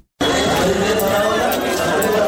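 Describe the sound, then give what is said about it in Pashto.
Crowded waiting area of Asadabad central hospital, packed with patients and their companions. Dense, continuous babble of many overlapping voices fills the whole clip at a steady, fairly loud level. “دا د اسداباد مرکزی روغتون دی چې پکې ناروغانو او د هغوی پیوازانو ګڼه ګوڼه جوړه کړې ده.”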